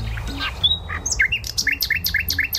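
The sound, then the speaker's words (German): Nightingale song: bright, high chirps and whistles that settle into a rapid run of repeated, evenly spaced notes, clear over a low background rumble. “Ist das ein Spatz? Nein, das ist eine Nachtigall.”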